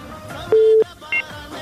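Telephone keypad tones dial out for a listener call: a longer steady tone, then a shorter one, both sharp and clear over a soft background.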